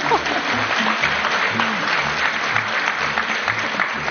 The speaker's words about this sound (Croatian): Niste pljeskali na Hrvatsku radio televiziju.